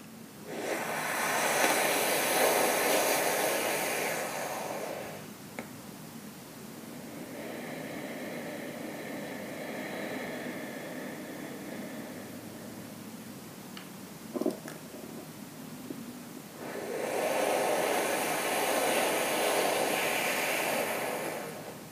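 Deep, slow breathing during a breathwork exercise, with airy, hissing breaths: two loud breaths frame a softer, longer one, and no voice is heard.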